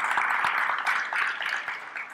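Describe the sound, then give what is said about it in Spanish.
Audience applause, a dense, steady patter of many hands clapping that holds at an even level throughout. “le puedes dar un aplauso a Dios si quiere”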